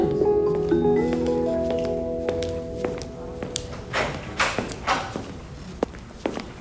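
Running footsteps: fading tonal notes give way to many quick, irregular taps and thuds, moderately loud, with no voices.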